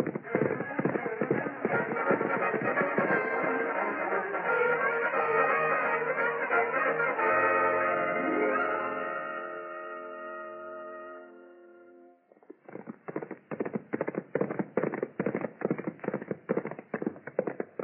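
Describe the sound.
Hoofbeats of ridden horses in a western drama: a dense, busy layer of galloping runs for about twelve seconds, then gives way to clear, rapid, rhythmic clip-clops.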